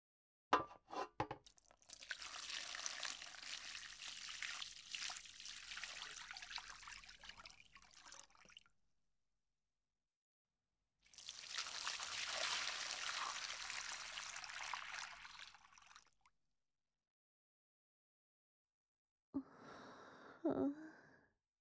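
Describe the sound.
Hot bath water trickles and pours in two long, steady hissing stretches separated by a silent pause, followed by a brief, fainter splashing burst near the end.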